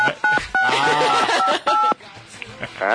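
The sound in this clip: A telephone beeps with several loud, short dual-tone keypad pulses in an irregular rhythm against a busy background.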